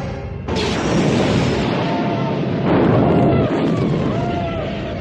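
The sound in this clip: Laser weapons firing in a space battle sound effect as troopers storm a rebel cruiser: a dense, loud, noisy roar of blasts and crashes that swells near the start and again midway.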